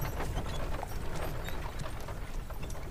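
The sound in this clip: Horse hooves clip-clopping while someone rides, a busy, continuous run of quick hoofbeats at a steady moderate level with no clear pauses and no talking.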